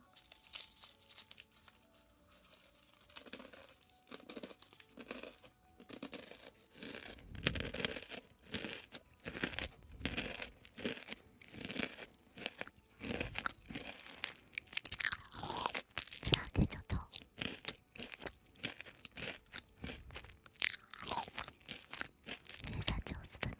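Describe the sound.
Crunchy green pea snacks being chewed, quiet crisp bites and crunches that start sparse and grow more frequent, with occasional crinkling of packaging between the many mouthfuls.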